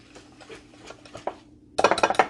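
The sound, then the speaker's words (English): A whisk works through chocolate whipped cream flavoured with espresso powder in a bowl: soft, scattered scraping strokes, then a burst of louder metallic clinks against the bowl near the end. “Now it's all stuck in my whisk.”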